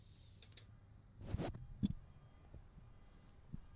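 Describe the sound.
A lighter is clicked to light a cigarette: a few soft, sharp clicks come at irregular intervals, with a brief noisy burst among them, all faint and with no talk.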